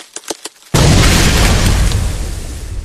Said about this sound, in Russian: раздается грохот и треск. Лед, он трескается.